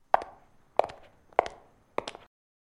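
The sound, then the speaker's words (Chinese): Four light footsteps going upstairs, evenly spaced about half a second apart and soft, in otherwise quiet surroundings. “好了，先跟我上来吧。看看楼上有什么吃的给你，脚步轻一点哦，别把你叔叔阿姨吵醒了。”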